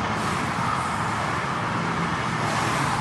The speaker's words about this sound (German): Da ist der neue Mondeo übrigens.